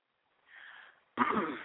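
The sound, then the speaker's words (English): A man clears his throat before rapping a freestyle verse: a soft, breathy rasp and then a louder, harsh, grating burst, with no talking around it. “I thought I was going to hear some hot shit after that cleared my throat.”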